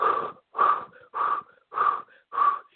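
Five forceful exhales through the mouth during a breathing exercise. Each is a short, breathy, slightly wheezing huff, separated by brief silences in an even, steady rhythm.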